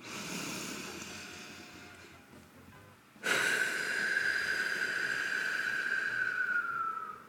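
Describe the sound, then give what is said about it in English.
Slow breathing out through pursed lips during a breathing exercise: a soft breath gives way to a sudden, steady airy exhale with a thin whistling tone that sags slightly in pitch near the end, with no talking. “This time when you breathe out, I want you to send the air as if you're pushing it through a straw.”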